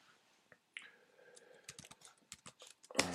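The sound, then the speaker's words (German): Typing on a computer keyboard: quiet, irregular clusters of light key clicks, with a denser, louder burst of keystrokes near the end. “Entschuldigung, wenn ich nebenbei noch ein bisschen tippe.”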